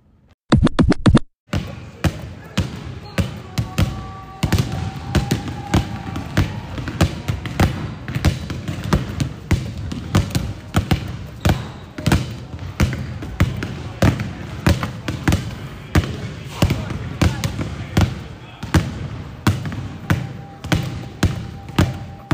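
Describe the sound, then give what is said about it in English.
A basketball bouncing on an indoor court on the third floor of a renovated building, during a shooting session at the hoops. Many sharp, regular thuds fall in a steady dribbling rhythm after a brief burst of quick taps at the start. “So we are here on the third floor. Just got done shooting some hoops.”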